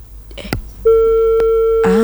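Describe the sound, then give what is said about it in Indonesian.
A steady electronic telephone tone sounds after a call is disconnected. It holds one even pitch for the second half, following a few short clicks and noises. “terputus sambungan teleponnya ternyata”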